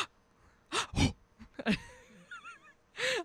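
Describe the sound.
A voice imitates weird, exaggerated breathing with sharp gasping breaths and wheezy, squeaky voiced sounds, in a few short bursts separated by pauses.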